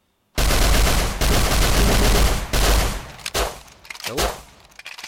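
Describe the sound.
Gunfire in a video game with a pistol in play: a loud, dense stretch of rapid shots, then a run of scattered separate bangs.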